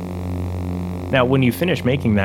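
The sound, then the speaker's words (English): Steady electronic hum forming the base of a lightsaber sound, a recreation of TV picture tube buzz combined with projector hum, droning with layered low harmonics before a voice speaks over it. “Ben combined the buzz with the projector hum to create the foundation of the lightsaber.”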